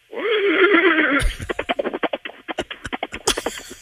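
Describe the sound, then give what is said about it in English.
A horse whinnying and galloping as a sound effect: a wavering, high neigh comes first, then a long run of quick, rhythmic hoof clops. “Okay, that's good. The gallop, not bad. The whinny, a little...”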